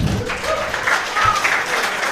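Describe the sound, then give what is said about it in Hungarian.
Short burst of applause, a dense and even patter of many hands clapping at steady loudness throughout. “Tapsot kérünk.”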